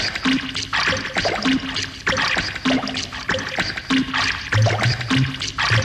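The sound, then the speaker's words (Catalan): Water pours and trickles in a steady rhythm of many short, splashy bursts at an even pace, each with a wet, gurgling texture and a faint low tone underneath, with no voices. “Una mica d'aigüeta, una mica en remull, ara va molt bé per l'estiu, aquí dins la meva piscina de plàstic.”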